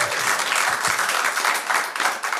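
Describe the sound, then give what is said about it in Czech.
Audience applause fills the whole clip, with many hands clapping in a loud, sustained wash and some individual claps standing out from it. “Možná jim taky chutnal potlesk, zatleskáme jim tam nahoru.”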